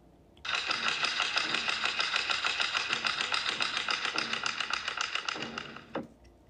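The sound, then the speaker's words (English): Sharp wooden clacks from two wood blocks struck on the stage floor in Japanese theatre, a beat signalling a curtain rise. Many strikes run in a fast, dense, steady stream, loud and alone, then stop abruptly. “One player sits on the side of the stage and hits two wood blocks on the ground.”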